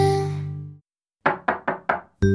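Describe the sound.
Knocking on a door: four quick, hard knocks in an even rhythm, with a sustained resonant tone before and after them.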